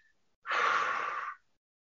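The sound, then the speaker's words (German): One slow exhale as a calming breathing technique, a steady, soft breathy hiss that starts abruptly, holds evenly for just under a second and stops, alone with no talk. “Und die einfachste ist, dass du einfach dich auf den Ausatmen konzentrierst. Du konzentrierst dich nur auf den Ausatmen, Atem.”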